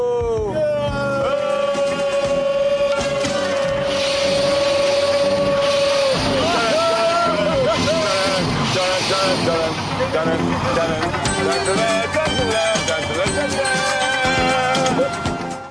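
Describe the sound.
A car engine roars as the driver hits a turbo boost on the freeway in a KITT-style car. A loud, sustained drone with wavering pitch runs throughout, mixed with people talking.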